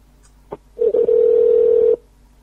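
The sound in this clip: A telephone call is placed: a faint click and a couple of short blips, then one long, steady, mid-pitched ringing tone lasting just over a second before cutting off to silence.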